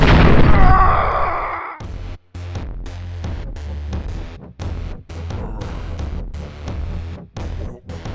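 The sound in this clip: A chest laser fires with a loud rushing blast, then continues in a long run of rapid, rhythmic pulsing zaps.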